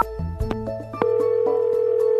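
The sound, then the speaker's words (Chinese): A telephone ringing tone heard while placing a call: a few short stepped tones, then one long, steady, clear beep held for over a second before cutting off. “我打个电话问问人吧。嘟嘟嘟嘟。”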